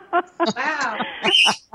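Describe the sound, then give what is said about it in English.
Pet birds calling with harsh, chattering squawks in several quick bursts, some with wavering tones and a brighter, shrill cry near the end. “I think Deborah's birds are trying to talk to us.”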